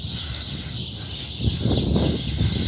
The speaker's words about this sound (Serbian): I šta ovo fine ptičice što crkuću.